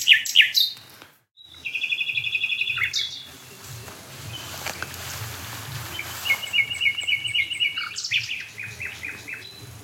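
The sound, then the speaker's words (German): Nightingale song from a hedge by a dead oak near barns: loud, varied phrases of sharp chirps alternating with rapid, rattling trills, with brief pauses between phrases and a low, faint rumble underneath. “Die Nachtigall an der toten Eiche in der Hecke”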